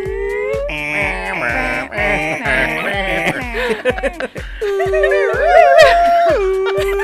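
Dogs howling: long, loud, wavering howls that rise and fall, heard over a fast, regular pulsing sound that runs through the whole stretch.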